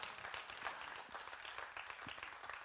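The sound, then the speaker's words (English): A church audience clapping their hands in praise during a service, a steady wash of many overlapping claps that holds at an even level from start to finish. “Come on, give Him a hand clap of praise, would you?”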